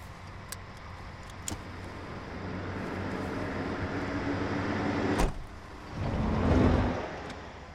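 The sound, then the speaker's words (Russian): A van door opening as a man climbs in, with one sharp clack followed by a longer sliding rush that swells and fades over a low vehicle rumble. “Он открыл дверь фургона и садится рядом.”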